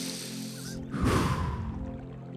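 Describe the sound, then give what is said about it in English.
A single big breath with a loud, breathy rush of air lasting about half a second over a steady low background hum. “Big breath.”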